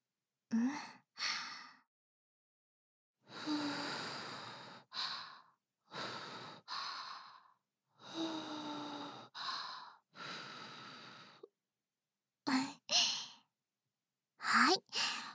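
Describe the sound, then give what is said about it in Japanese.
A person blows on hot tea to cool it. Many soft, breathy puffs of air come in short bursts separated by quiet pauses, some longer and some quick, all gentle and fairly faint. “あ、お茶、まだ熱かった？仕方ないな。また、ふうふうって、してけるね。”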